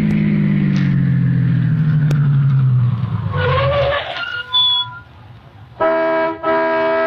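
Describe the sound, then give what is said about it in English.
A car pulls into a gas station, its engine hum falling steadily in pitch as it slows and fades, followed by two brief honking tones at the end. “Stopped at the next gas station.”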